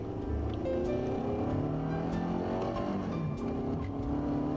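A car drives along with a steady engine drone. Its humming tones shift gradually up and down at an even, moderate level, with no voices.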